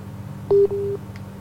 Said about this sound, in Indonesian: Baik, terputus ya teleponnya.